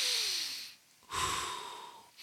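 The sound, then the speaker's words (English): A deep breath is taken to ease tension: two long, airy breath sounds with a short pause between them, soft and alone. “Okay, deep breath.”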